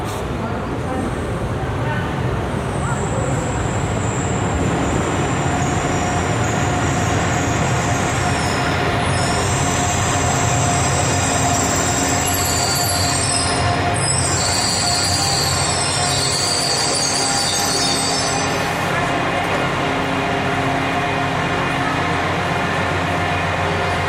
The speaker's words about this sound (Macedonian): Патничкиот воз Ориент Експрес ќе пристигне на перонот број 1.